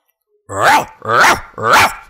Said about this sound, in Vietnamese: Chó vàng sủa lên nổi dữ dội, tiếp tục đánh thẳng về phía Bùi Lăng.